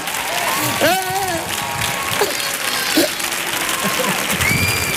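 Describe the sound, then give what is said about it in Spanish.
An audience applauds in a standing ovation at the Auditorio Cartuja, a steady wash of clapping throughout while a man talks excitedly over it. “Maravilla, el público en pie, sí señor, y no hay sonado, y no hay sonado todavía, y no hay sonado, ahí está la gente ya en pie”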